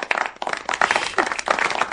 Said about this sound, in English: Oh, you're applauding that? Wow, you're applauding that.